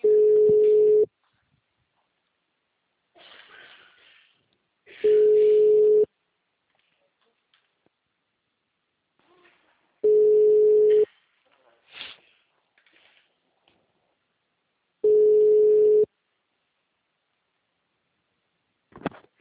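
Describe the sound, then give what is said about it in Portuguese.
An unanswered telephone call rings: four long, steady ringback tones at even intervals, about five seconds apart. Faint murmurs fill the gaps between them. “Espera aí, vou ligar.”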